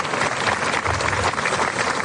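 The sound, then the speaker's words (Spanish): Applause from the crowd at a small village fiesta in Purchena: a dense, steady wash of many hands clapping that goes on without a break for the whole moment. “a Purchena, así que este aplauso va para todos vosotros.”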